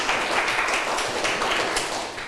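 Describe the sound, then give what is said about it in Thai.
Students in a classroom clap for themselves with a dense, steady patter of many hands that lasts the whole clip at an even, fairly loud level. “เก่งมากปรบมือให้ตัวเองหน่อยค่ะ”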